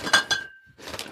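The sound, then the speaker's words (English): Glass beer bottles of stout clink as someone struggles to open them without an opener: a few sharp clinks, one leaving a thin ringing tone that hangs for a moment, then another burst of clattering glass. “This is the sound of me opening beers badly.”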